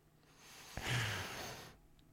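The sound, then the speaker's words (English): A single soft breath, faint and airy, rising and fading over about a second with quiet around it. “No, that's the sound of breathing.”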